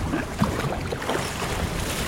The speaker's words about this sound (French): c'est pas le plus agréable parce que là le vent souffle un peu